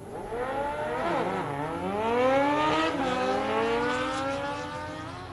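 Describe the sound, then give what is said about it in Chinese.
A car starts up and speeds off, turning toward the city of Vallejo at night. Its engine roars steadily, with a pitch that dips briefly and then climbs as it accelerates. “那辆车又突然发动，然后一个转弯，以极快的速度朝着瓦列霍市内的方向飞奔而去。”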